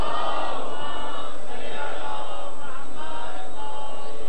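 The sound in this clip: A crowd at a religious gathering loudly chants salawat in unison, a dense wall of many voices that holds steady and strong through the whole stretch.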